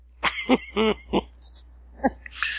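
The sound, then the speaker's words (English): Several raspy, voiced coughs come in a quick cluster, then after a pause one more cough follows, forming a short coughing fit. “I'm giving myself coughing fits here.”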